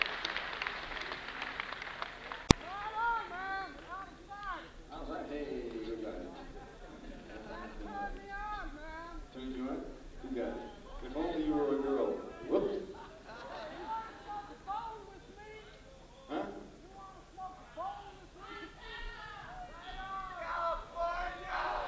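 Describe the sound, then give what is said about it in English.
A live audience calls out and cheers, faint scattered shouts and crowd chatter rising and falling in waves, with one sharp click early on. “Jesus, it's wonderful to be with an audience that you can talk to. Yes, indeed. Speak up, folks. It sounds like New Jersey out there.”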